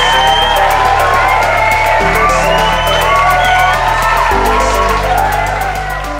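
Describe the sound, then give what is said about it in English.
A crowd cheers, whoops and yells as a guest is introduced at a live event, a loud, unbroken wall of voices that stays strong for the whole span. “Ladies and gentlemen, please put your hands together for Laban Onseye.”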